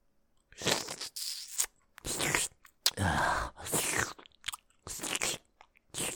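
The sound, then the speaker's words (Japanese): Wet mouth sounds of ear licking in a Japanese ASMR roleplay: close, crackling slurps and smacks in several bursts with short silences between them, and no speech. “ずっと耳だけ舐めて。”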